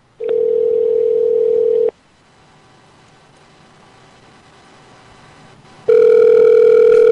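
An outgoing telephone call rings out: a steady electronic ringback tone lasts about two seconds, a quieter pause follows, then the tone returns loudly at the end.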